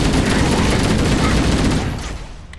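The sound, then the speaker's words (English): Rapid video-game gunfire from Marines shooting at an enemy, a dense stream of overlapping shots that fades near the end. “I see some Marines in trouble. They're shooting at someone”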